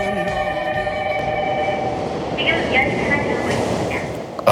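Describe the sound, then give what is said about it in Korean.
A Seoul subway line 2 train arriving at the station: a steady, loud rumble with sustained whining tones that swell slightly near the end. “지금 서울 2호선, 2호선 열차가 들어오고 있습니다.”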